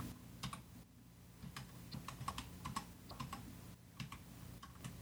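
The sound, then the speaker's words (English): A password being typed on a computer keyboard produces faint, irregular key clicks in quick runs and short pauses, soft and steady, with no voices. “Email address first. Now I'm going to tab once. Word password edit. Type in your password again.”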